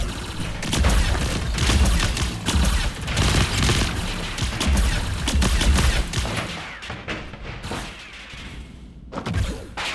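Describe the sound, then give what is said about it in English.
A volley of gunfire in a movie scene: many loud, sharp shots crack in rapid, overlapping bursts, with heavy low thumps throughout. The shots keep going for about ten seconds and thin out slightly toward the end. “we open fire”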